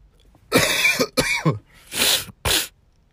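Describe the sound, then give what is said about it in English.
Four harsh, throaty coughs from a person with a cold, each a separate burst, the first two longer and the last short, with brief quiet gaps between them. “Excuse me. I have a cough. I have a cold.”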